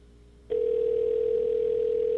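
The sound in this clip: Call transfer tone on an old, crude voicemail system: one steady, even tone that switches on abruptly after a half second of faint hiss and holds unchanged to the end.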